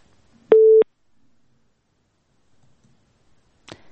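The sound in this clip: A telephone busy tone after a call is cut off: a single short, steady, loud beep, followed by near silence and a faint click at the end.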